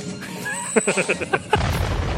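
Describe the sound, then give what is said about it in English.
Explosion of a flying drone thrown at a robot in a film scene: a quick run of sharp pops, then a loud, noisy blast that rumbles on to the end. “He throws the drone that he killed at the T-800. It blows up.”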